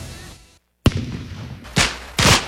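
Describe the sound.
Fireworks exploding: after a brief silence, one sharp, loud bang is followed by two more booming bursts over a rough, crackling noise bed.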